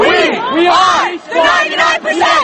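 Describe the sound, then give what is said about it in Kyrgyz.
Occupy Wall Street protesters shout together in New York's Zuccotti Park, with a mass of voices rising in a few strong rhythmic bursts of chanted yelling separated by brief dips. “Акциянын катышуучулары ушинтип, биз элдин 99% түзөбүз деп, байлыктын көп бөлүгүн 1% гана байлар колдонуп аткандыгын кыйкырып атышты.”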